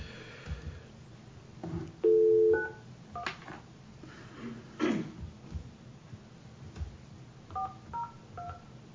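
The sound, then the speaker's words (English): Telephone keypad dialing tones: a few short electronic beeps in separate groups, with one longer, louder tone early on and a quick run of fainter tones near the end, over soft background rustling and breathing. “I only dialed three numbers.”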